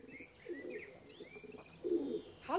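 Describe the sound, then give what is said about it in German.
Pigeons coo and chirp as they are coaxed with bread near the ash bins by a house entrance: a few low, throaty cooing bursts mixed with higher, brief chirps, with no talk. “Der unsichtbare Pumuckl mit dem durchaus sichtbaren Brot in der Hand postierte sich bei den Aschentonnen und versuchte von dort aus, die Tauben herbeizulocken.”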